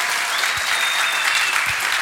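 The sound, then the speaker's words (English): An audience at a morning church service applauds as a preacher comes up to preach, a loud, dense, steady wash of many hands clapping at once. “would you give him like a big round of applause and some love as he comes up to preach to us?”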